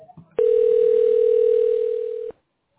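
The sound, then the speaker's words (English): A steady telephone dial tone sounds while a call is being dialed: one continuous, unbroken tone lasting about two seconds, loud and alone, then stopping abruptly. “You'll also hear me dialing.”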